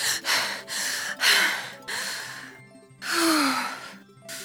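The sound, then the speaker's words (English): Deep, slow breaths come from an anxious person being told to calm down, as a series of long in-and-out breaths over faint, soft background music. “Take some deep breaths.”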